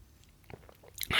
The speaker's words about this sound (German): Ein Schluck vom Tee, schwarzer Tee selbstverständlich, für die, die es interessiert.